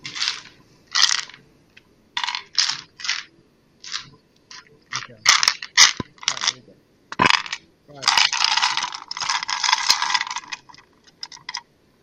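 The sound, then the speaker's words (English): Dice rattling inside a dice randomizer during a tabletop role-playing game: many short, irregular clattering bursts, then a longer sustained rattle near the end. “I'm going to randomise my dice again. Because randomizer! Randomise them!”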